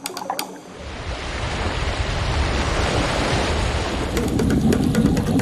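Tide water washes over the shore in a steady hissing surge that swells after a quieter opening and stays full to the end, with a few sharp ticks at the start and near the close.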